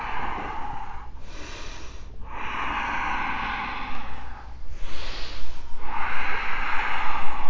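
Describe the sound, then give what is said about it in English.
Strong, audible breathing during a yoga triangle pose: a few long, hissing inhales and exhales through the nose and mouth, loud and close, with the later breaths turning pulsed and more forceful. “Continue to breathe powerfully.”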